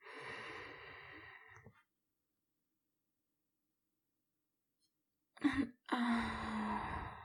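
A deep breath during a guided relaxation exercise: a long, airy inhale that lasts nearly two seconds, followed by several seconds of silence, then a brief sharp burst of air and a long, steady, slightly voiced exhale.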